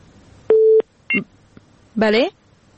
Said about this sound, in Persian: بله تماسشون قطع شد.